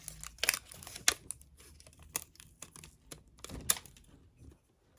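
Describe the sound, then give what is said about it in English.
Sticky tape is pulled and pressed onto gift wrapping paper, producing quiet, crisp crackles and sharp ticks in a few short irregular bursts. “now I'm just gonna tape that as well.”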